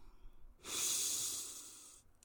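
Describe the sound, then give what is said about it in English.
A single deep breath during a guided breathing exercise, a soft airy hiss that swells in, holds for about a second and a half, then eases off. It is quiet and heard alone, with no talk over it. “So together, let's breathe three times. So inhale love and exhale fear.”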